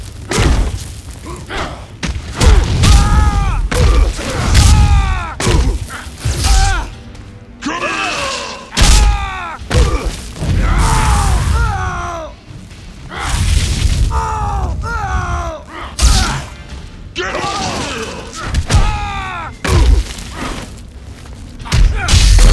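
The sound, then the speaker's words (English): Punches and blows land in a fighting video game, a dense run of heavy thuds, slams and booming hits that repeat throughout, loud and nearly continuous with only brief pauses. “Sounds like I'm fighting.”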